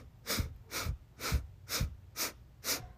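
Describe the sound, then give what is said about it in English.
Quick, sharp inhales through the nose during a breathwork exercise: six short breathy sniffs at an even, brisk rhythm, each a hissing burst, with no talk over them. “We're going to do 8 inhales through our nose quickly. And go.”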